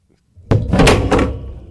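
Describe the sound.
A single heavy thump as a man angrily strikes a microphone, a loud booming hit that fades out over about a second.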